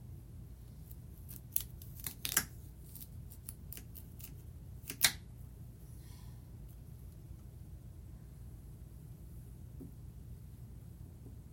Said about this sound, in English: Okay, now we are cutting. I am cutting. I know I've been saying we a lot. Carrot.